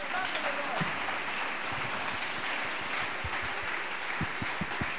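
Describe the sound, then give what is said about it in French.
Loud audienceal applause acclaiming the Lord at a church gathering: dense, continuous clapping from many hands, with voices mixed into the crowd and a few heavier thumps breaking through near the end. “Acclame très fort le Seigneur.”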